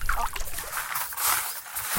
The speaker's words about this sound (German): Und ich glaube, da müssen wir jetzt durch. Das ist der Bohlsdorf-Bach.